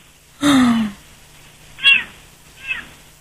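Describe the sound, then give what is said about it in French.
A cat meows three times in the background: first a longer, clear meow, then two shorter, fainter calls after pauses, with no talk over them. “Et c'est le chat qu'on entend miauler, là, oui, dans le fond? Oui, oui, oui. Oh. Ben, on l'entend bien.”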